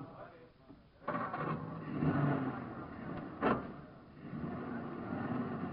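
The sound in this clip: A car drives up a street, its engine surging in after about a second and revving again partway through before settling into a steady hum, with faint voices alongside.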